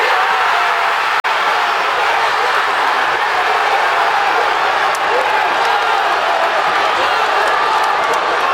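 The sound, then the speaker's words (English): England football supporters in Manchester celebrate a winning World Cup goal against DR Congo. A loud, sustained crowd roar of cheering and shouting continues throughout. “That's the sound of supporters celebrating in Manchester as Harry Kane scored the winner.”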